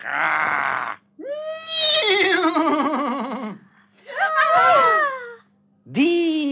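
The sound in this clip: A horse whinnies in several loud calls with a quavering, falling pitch, separated by short pauses, while a low steady hum runs between them.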